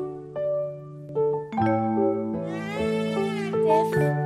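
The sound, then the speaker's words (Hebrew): Meowing of hungry cats in a children's song, with drawn-out, wavering meows set against sustained musical notes that change pitch in steps. “החתולים מייללים, הם רעבים”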